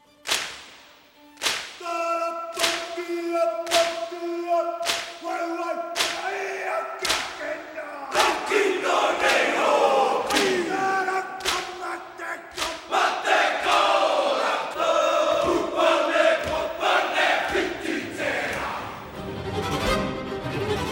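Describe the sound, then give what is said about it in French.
A group performs a Maori haka as a welcome, with forceful shouted chanting and loud, sharp slaps and stamps striking in a driving rhythm, crowd voices joining throughout. “on va commencer par un haka pour souhaiter les yeux dans les yeux. La bienvenue, parce qu'il s'agit évidemment d'un message de bienvenue à notre hôte”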